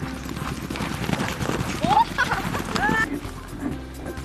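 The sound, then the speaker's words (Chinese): Hooves of a running horse in Zhaosu County, Xinjiang, clip-clop in a quick, irregular patter, with a few short vocal calls rising over them in the middle. “马跑的时候像飞的感觉一样。梦想就是当一个完美的骑士。 马儿跑起来之后。”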